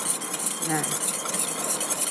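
Stirring of an oil mixture with a preservative added, a continuous swishing, scraping hiss that stays steady throughout without pauses.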